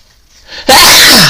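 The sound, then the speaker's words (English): A single loud, explosive sneeze bursts out after a quiet, rising intake of breath, then trails off briefly. “I feel like I'm about to sneeze. Hold on. I feel like I'm going to sneeze.”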